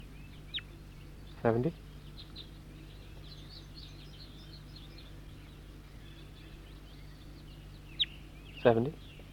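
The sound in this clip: Two short, harsh bird calls, one near the start and one near the end, separated by a long quiet gap over a steady low hum, with faint chirps in the background.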